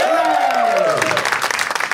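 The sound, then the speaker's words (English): Audience applause welcoming guests onto a stage; a voice speaks over the opening, then a burst of many hands clapping takes over. “I give them a big round of applause above the stage.”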